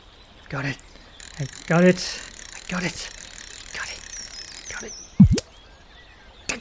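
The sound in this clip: Fishing rod reel winding in a video game: a short burst of mechanical ratcheting clicks among other brief game sound effects and a thin sustained high tone.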